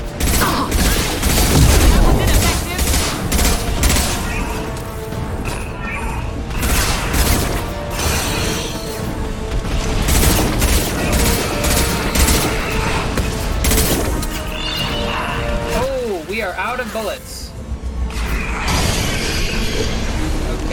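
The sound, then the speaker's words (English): Anti-ship batteries fire in a video game, aimed at a collector vessel: a dense, loud barrage of booms, mechanical clanks and crashing impacts that runs continuously, with a voice talking over part of it. “Firing anti-ship batteries at collector vessel.”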